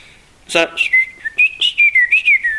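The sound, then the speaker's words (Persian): A person whistling to themselves: a loose, wandering tune of many short high notes that slide up and down, loud and clear with no talk over it. “یا مثلا سوت میزنه برای خودش،”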